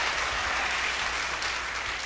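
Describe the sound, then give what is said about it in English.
Audience applause at a live music show as a band member is introduced, a dense, continuous patter of clapping at an even loudness with no talk. “Let's give him a big round of applause.”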